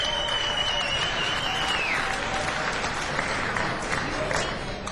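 Warm audience applause welcomes the communications director of Asheville Area Habitat to the front, a dense, steady wash of clapping that holds at an even loudness throughout.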